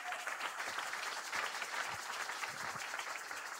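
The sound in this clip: An audience applauds in memory of deceased parents during a sermon, with continuous, even clapping at low volume and no distinct pauses.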